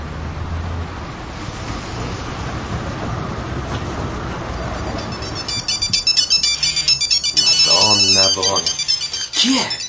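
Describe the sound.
A mobile phone ringtone cuts in about halfway through: a loud, repeating electronic melodic pattern rises over steady rushing background noise while people talk over it.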